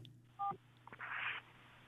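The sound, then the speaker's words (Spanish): Electronic telephone tones mark an incoming call: a brief steady two-pitch beep, then a longer, brighter buzzing burst, over a low constant hum. “Ay, parece que entró una llamada.”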